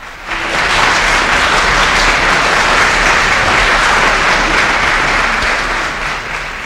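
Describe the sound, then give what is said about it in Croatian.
Sustained applause from an audience at a comedy routine, a dense, steady wash of clapping that swells in quickly and holds loud and even to the end. “Molim aplauz.”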